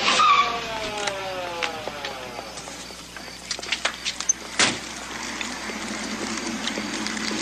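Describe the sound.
A car engine starts and revs while driving, its pitch sweeping in several harmonic glides before a series of sharp clicks and knocks over a steady, loud mechanical rumble.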